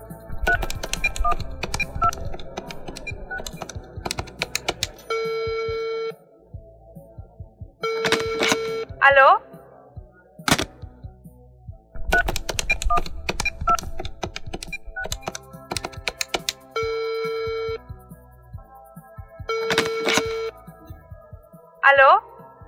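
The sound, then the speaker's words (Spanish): A telephone number being dialed: sharp clicks and taps of keys mixed with several short, steady beeps, coming in bursts with pauses between them. “Estoy marcando al 77123.”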